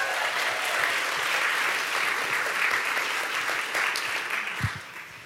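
Loud, sustained applause from an audience welcoming two women guests onto the stage at an evening event about sharing hope. Dense, steady clapping holds throughout and tapers slightly at the end.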